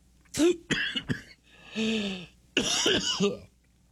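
Coughing and throat clearing from someone who has just choked: a few harsh, strained bursts in separate clusters, with rough, voiced tones between them, loud and alone.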